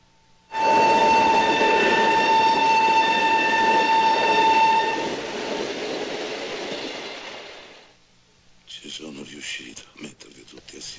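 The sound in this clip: A passenger train moving, heard from inside. A loud, steady horn tone sounds over a rolling rumble for several seconds, the rumble fades out, and then a voice speaks.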